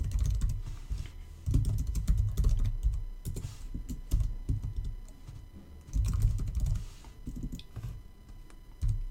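Names being typed on a computer keyboard: rapid, dense key clicks in uneven bursts with brief pauses, steady and fairly quiet.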